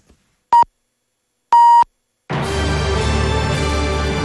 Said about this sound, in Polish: I teraz dopiero będzie sygnał czasu. Będzie 23.